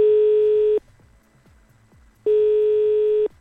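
A telephone ringback tone sounds while a call is being placed. Two steady, mid-pitched buzzing tones, each just under a second long, are separated by a silent pause of about a second and a half.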